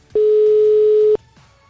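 A telephone tone while a call is dialed: a single loud, steady beep lasts about a second, then cuts off, leaving faint background noise.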